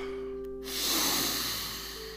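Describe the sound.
A deep, slow breath is taken while holding a yoga stretching pose. It is a long, airy rush that swells and then eases off over a soft, steady background tone.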